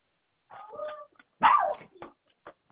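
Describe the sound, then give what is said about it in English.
A dog gives a few sharp barks and yips, loud and clear, separated by short silent gaps. “That was my dog.”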